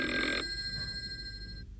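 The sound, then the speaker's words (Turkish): A telephone bell rings in one bright, loud burst, then its ringing tones hang on and fade away before falling silent. No voices are heard. “Telefon çalıyor. Telefon.”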